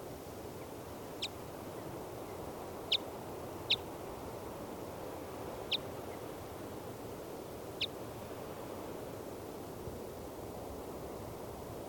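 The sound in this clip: Calls from a female bird off her nest atop a 40-foot lodgepole pine in a clearing: five brief, high, sharp chirps at irregular intervals over a steady background hiss.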